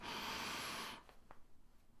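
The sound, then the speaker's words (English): A single sharp nasal inhale during a guided breathing exercise makes a loud, airy hiss lasting about a second. It cuts off abruptly and gives way to faint, quiet rustling. “Breathe in through your nose and count for four.”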